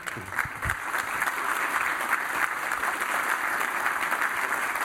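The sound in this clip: Applause from a room full of people: dense, steady clapping that holds at an even level for the whole clip, with no talk over it.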